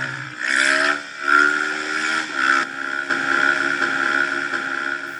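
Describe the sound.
A vehicle engine revs as the driver tries to pull a wheelie. A high, steady whine surges in a few bursts of throttle, with a lower droning hum running underneath.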